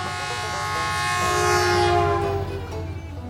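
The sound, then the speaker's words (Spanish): A train passes with its horn sounding: a loud, sustained multi-tone horn chord swells over a low rail rumble, then fades and breaks off toward the end as the rumble continues. “Ojo el tren que se vino, ojo que se vino el tren.”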